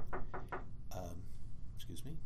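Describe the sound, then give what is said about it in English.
Three quick, faint knocks sound on a door, evenly spaced and sharp. A person then speaks quietly. “There's a knock at the door.”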